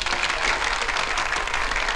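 Audience applause welcoming a guest onto a show: dense, steady clapping from a crowd that holds an even loudness throughout without breaking into distinct claps.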